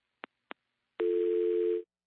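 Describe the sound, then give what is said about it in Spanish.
A telephone tone after a dropped call: two short clicks, then a steady low tone that holds for under a second and cuts off, with no talk. “Uy, se nos cortó la llamada”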